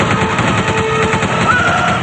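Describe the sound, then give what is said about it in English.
A machine gun mounted on a biplane fires in a rapid, continuous rattle of shots, loud and unbroken throughout, in a film action scene. “Rick fires a machine gun mounted behind him into the sand face, but it's futile.”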